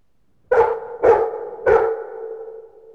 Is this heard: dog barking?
yes